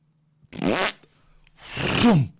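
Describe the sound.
A voice imitates a fart in a toilet cubicle with two loud, blubbery raspberry bursts, a short one followed after a pause by a longer one whose pitch drops toward the end.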